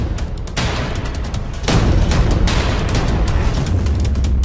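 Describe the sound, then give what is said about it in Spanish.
Gunfire in a fight: dense, rapid bursts of shots over a heavy rumbling roar, growing louder after the first part and continuing without pause. “El fuego se abre y Steve comienza a pelear con todos.”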